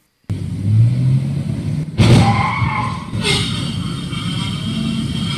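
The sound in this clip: A car skidding and crashing during a stunt shoot for a television series: loud, sustained tyre screech and engine roar, broken by two sudden sharper bursts partway through.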